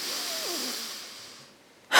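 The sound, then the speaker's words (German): A person takes a slow, deep breath in during a spoken reflection, a soft airy rush of air that lasts over a second and gradually fades away, quiet and alone without any talk. “Jeder Atemzug, atme, atme mal ein,”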